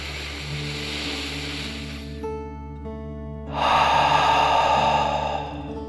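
A slow, deep breath in and then out during a soothing bedtime meditation, two long soft airy rushes with the second louder, over steady low sustained tones.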